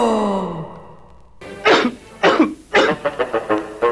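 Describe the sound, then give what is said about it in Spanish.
A person has a coughing fit. A drawn-out vocal moan falls in pitch, then three strong, harsh coughs follow, then a quicker run of shorter, weaker ones. “Evito la tos con pastillas Penetro.”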